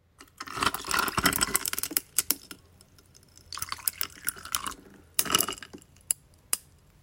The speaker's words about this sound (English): The sound that you just heard was me pouring water and ice.